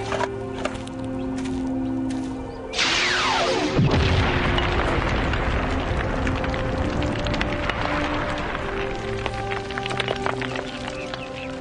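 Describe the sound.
A phaser blast boring through calvinite rock in an underground tunnel in a Star Trek audio drama: a sweeping tone drops sharply in pitch, then a loud sustained roar of crumbling rock with rattling debris continues to the end.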